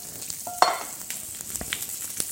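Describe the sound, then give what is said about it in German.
Crackling sizzle of food frying in neutral oil in a pan: a louder burst of pops early on, then a steady bed of fine spits and crackles with no voices. “Aber soll auch gleich anfangen zu braten. Ne? Und da hast du auch wieder neutrales Öl genommen. Ne? Dann nehme ich jetzt auch neutrales Öl.”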